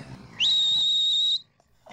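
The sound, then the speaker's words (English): A whistle blown in one long, shrill, steady blast lasting about a second, sliding quickly up in pitch at its onset before holding a single high note, then cutting off. “If I blow the whistle from time to time, they just sit there and don't attack the door.”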